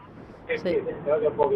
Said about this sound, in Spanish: porque se oye bastante ruido del coche. Sí, es que, bueno, voy con hermanos libres, pero claro, no sé si la cobertura es muy buena, conduciendo.